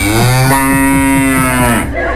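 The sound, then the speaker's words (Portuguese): A cow gives a single loud, drawn-out moo, low and steady in pitch and lasting nearly two seconds. “É aquelas vacas que correm puxadas por uma moto, mais ou menos assim.”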